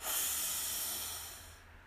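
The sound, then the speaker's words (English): A person's deep breath during a guided breathing exercise: one long, airy hiss that stays steady, then thins and fades out, alone without talk. “Deep breath in and out.”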